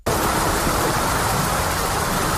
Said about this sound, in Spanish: Así caía la lluvia y el granizo que provocaba inundaciones